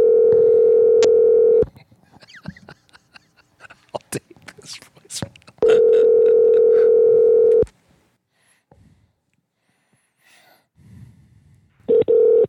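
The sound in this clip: Ringback tones on an outgoing phone call placed late at night: steady low hums of about two seconds each, two full rings and the start of a third, with quiet talk and rustling in the pauses.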